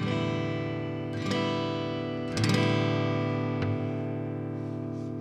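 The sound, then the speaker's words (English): Strings strummed with a flat pick give three bright, loud strums at roughly even intervals, and the full chord rings on with bright twang between them. “With a flat pick, you get a much louder sound. For example, here I am strumming with a flat pick.”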